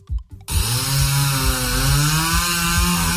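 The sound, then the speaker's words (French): A chainsaw snarls loudly and continuously after a brief moment of talk, holding a buzzing drone whose pitch wavers slightly as it runs. “C'est quoi, c'est une tronçonneuse? Ah ouais, je comprends.”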